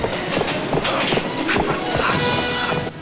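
A train rolling along the tracks, a loud, dense, steady rumble with rattling clatter that holds throughout and eases slightly at the very end.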